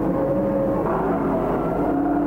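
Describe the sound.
Race cars run down the back stretch of a track with a steady, droning engine roar. The roar holds an even loudness, and its engine tones shift slightly in pitch as the cars pass. No one talks.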